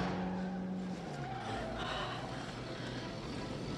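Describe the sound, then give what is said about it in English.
A red car peels away, its engine a low, faint drone that steps down in pitch after about a second, carried over a steady broad rushing hiss. “The red car peels away.”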